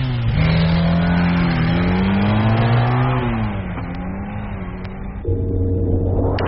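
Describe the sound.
A motorbike engine revs loudly, its pitch wavering up and down for several seconds before it shifts to a higher, steadier drone near the end.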